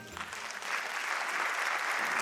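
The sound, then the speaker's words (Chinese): Audience applause at a gathering begins as light scattered clapping, then swells after a moment into a full, steady round that holds to the end. “谢谢， 谢谢， 感谢大家掌声，让我收到哈。”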